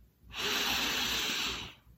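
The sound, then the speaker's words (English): A single deep breath, drawn in slowly for relaxation, makes a steady, airy hiss lasting about a second and a half before it fades, with no talk over it. “letting the air go and letting your body sink into relaxation more deeply. Another breath in,”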